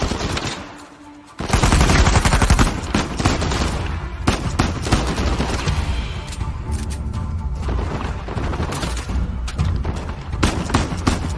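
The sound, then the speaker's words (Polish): Gunfire in a video game shooter: after a brief quiet moment, loud rapid automatic bursts and heavy thuds erupt and continue densely, with many overlapping shots until the end. “Gdzie ten gościu jeszcze strzela, słuchajcie? Tu gdzieś z góry.”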